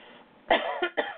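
A tickle in the throat brings on a few harsh coughs: a loud first burst, then shorter, weaker ones close behind.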